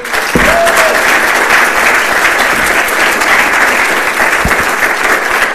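Audience applause welcoming a professor to a lecture, loud, dense, even clapping that holds steady throughout, with a short whistle near the start.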